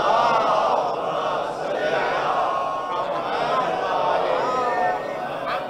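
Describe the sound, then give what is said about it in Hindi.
An audience chants salawat and slogans in unison at a religious speech, a loud, steady mass of voices that holds for the whole stretch with only slight swells. “और आपने तो नारा बुलंद करना शुरू कर दिया तो मैं खामोश हो गया”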